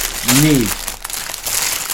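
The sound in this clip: A plastic bag of LEGO X-Wing pieces crinkles and rustles for about two seconds, a broad papery texture, with a short voiced sound near the start.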